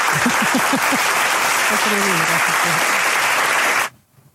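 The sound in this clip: Applause congratulating a colleague who has just graduated as an event producer: a dense, steady burst of clapping with voices calling out over it, cutting off abruptly near the end.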